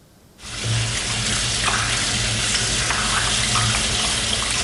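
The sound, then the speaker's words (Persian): Tap water runs in a steady, even hiss that starts abruptly and carries on without pause. It comes from a faucet left open during a handwashing demonstration. “این ویدیویی است که برای آموزش درست شستن دست‌ها پخش شد. آنچه بیش از همه مورد توجه بینندگانش قرار گرفت، باز بودن شیر آب و مصرف بی‌رویه آب بود.”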